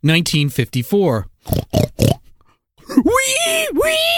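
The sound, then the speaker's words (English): A human voice imitates a pig, first with a run of quick squealing calls, then a few short guttural grunts, and after a pause a drawn-out, wavering squeal. “Wee! Wee! Ooh, baby. The history hog done sniffed himself out a tasty truffle.”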